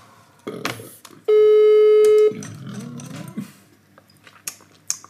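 A telephone rings with one loud, sustained electronic tone of about a second, standing clear above low rustling and clattering before and after.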